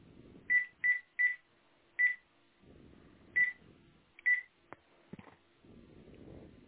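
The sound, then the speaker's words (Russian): A telephone number is dialed as touch-tone beeps: six short tones, a quick run of three and then three more spaced out, followed by a few soft clicks over a low murmur. “Попробуйте набрать сейчас номер какой-нибудь. А, номер набрать. Сейчас наберу.”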